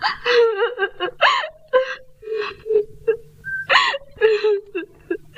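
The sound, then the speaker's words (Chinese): A woman cries and wails in high, wavering moans broken by gasping breaths, several sobbing bursts rising and falling in pitch with short pauses between them. “哎，你不要哭，你不要哭啊。”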